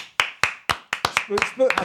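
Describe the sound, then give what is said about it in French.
One man applauds himself with four sharp, evenly spaced claps, then a few quicker claps as a voice begins speaking. “On est tellement pas nombreux qu'il s'applaudit lui-même.”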